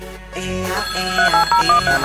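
A phone ringtone plays unanswered as a quick series of alternating high beeps, about six in all, after a stretch of music.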